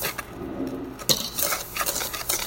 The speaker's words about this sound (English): So now I'm going to mix up my dry ingredients until well combined.